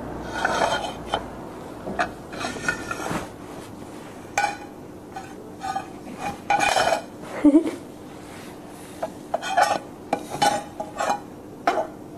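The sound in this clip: Plates and dishes being handled: many irregular clinks and clatters of crockery, some sharp and some softer, scattered throughout with speech between them.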